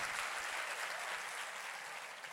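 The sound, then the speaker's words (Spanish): A church audience applauds during a service, a continuous, dense wash of clapping that stays quiet and steady throughout. “Si usted lo cree, dele mejor, mejor ese aplauso al Señor.”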